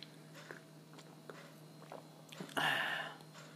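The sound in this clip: Someone tastes a gin and tonic with a light tonic smell: a few faint mouth clicks and small sounds, then a louder breathy sip near the end.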